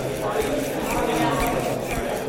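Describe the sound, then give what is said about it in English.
Footsteps of a small humanoid robot walking during a demonstration, a regular series of light, evenly spaced taps over steady background noise. “These are the footsteps of a small humanoid robot during a demonstration by UMass Lowell professor Yan Gu last summer.”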